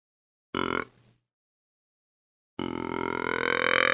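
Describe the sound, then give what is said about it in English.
A buck grunt deer call blown with very light air gives two low, raspy grunts: a short one, then after a silent pause a longer, steady one. “If I'm blowing low volume into a call, and this is on the buck grunt sound, I'll just put real light air into it.”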